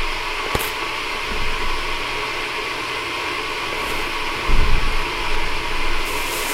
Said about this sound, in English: Vacuum cleaner.